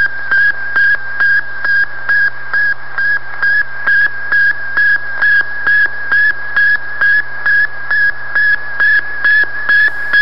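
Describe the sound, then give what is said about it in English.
Sputnik 1 satellite radio transmitter sending a long, steady train of short, high-pitched beeping pulses in an even rhythm, with regular gaps between beeps over a constant low hum. “That's the sound of the very first human radio transmission from a man-made moon, and now that Sputnik transmitter has been recreated.”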